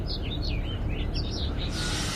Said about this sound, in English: what marks the end of the sitting is the whistling songs of the birds.